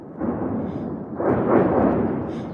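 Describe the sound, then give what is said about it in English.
Ukrainian Grad rocket strikes hit Shebekino village in Russia's Belgorod region, heard as low, muffled rumbling blasts that swell louder about halfway through and keep rolling to the end. “This Russian military blogger dodging for cover in the Shebekino village in the Belgorod region.”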